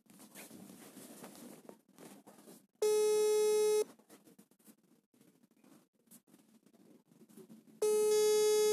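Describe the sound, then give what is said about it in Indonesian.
A phone ringback tone plays while a call is placed and waits to be answered. Two long, steady, buzzy tones are separated by a gap of several seconds, with faint low background noise between them. “Kita akan coba menyapa uh, dia via uh, by phone. Kita akan mencoba menelponnya. Apakah akan diangkat?”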